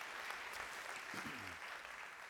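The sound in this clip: Applause from a church audience welcoming a man into a new role, a faint, even wash of clapping that holds steady from start to finish without clear breaks.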